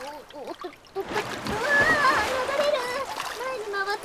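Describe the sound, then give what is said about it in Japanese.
Splashing during water play starts after the first second and keeps going as a broad, rushing churn of water, with lively talking heard throughout. “水遊び水遊び。さて、私はうつ伏せに乗ってみるよっと。”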